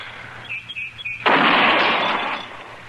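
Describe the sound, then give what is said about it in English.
A single rifle shot fired at a target from a gun steadied on a fence rail, a sharp, loud crack that trails off in a long rumbling decay, preceded by faint bird chirps. “Yeah, it's hitting where it's aiming, all right. I guess Andy got the kink out of it. He always does. Takes old Andy a month of Sundays to fix a gun, but once it's done right. Yeah. Well, there's no point in burning up any more ammunition.”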